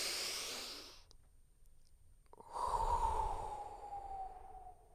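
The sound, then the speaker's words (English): A group of people drawing a deep breath together: a hissing inhale, a short pause, then a longer, louder exhale carrying a faint whistling tone that slowly fades, with no talk. “it's time to take a deep, big, fat breath.”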